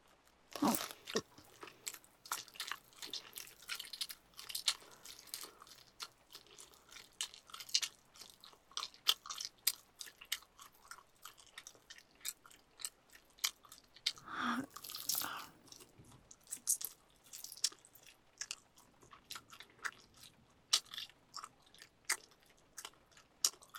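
Chewing and eating meat up close: many faint, moist bites and crunchy chews in an uneven rhythm, with soft wet clicks between them and no talking.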